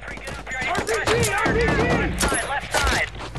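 Gunfire in a heavy gun battle: many rapid, overlapping shots and bursts, loud and nearly continuous, with deep thuds mixed among the sharp cracks.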